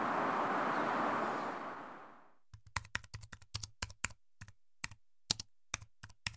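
Typing on a computer keyboard while writing a text: many quick, irregular keystrokes click in short bursts and pauses. A broad, loud hiss fades away before the typing begins.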